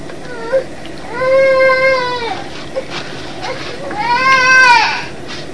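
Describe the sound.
A young child throwing a temper tantrum in a motel, letting out two long, loud, high-pitched wailing cries with a pause between them and a couple of brief smaller sounds in the gaps.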